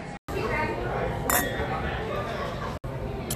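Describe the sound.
Wine glasses clinking in a toast in a restaurant: one bright, brief glassy clink rises over a steady, dense background murmur of voices.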